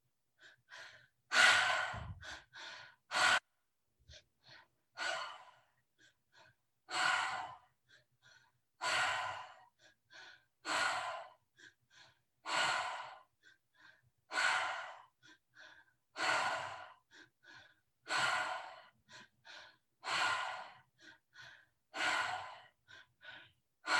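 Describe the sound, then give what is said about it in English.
Rhythmic breathwork breathing in a guided breath pattern: many airy, forceful inhales and exhales repeat in a steady, fairly quick cycle, each breath a distinct loud burst, with no talk over them. “And when you are ready, let's start the breath pattern together.”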